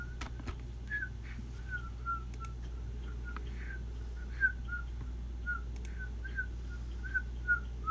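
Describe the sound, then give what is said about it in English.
A person attempting to whistle produces many short, faint, breathy notes at a fairly steady pitch, spaced irregularly over a low constant hum, with a few soft clicks in between. “I'll fail at whistling.”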